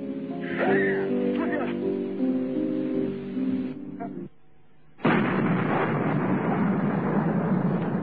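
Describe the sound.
Heavy gunfire during combat, with voices in the first half, a brief lull, then a loud, dense stretch of sustained firing that runs to the end.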